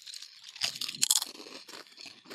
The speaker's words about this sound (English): We got some chips. Let's try them.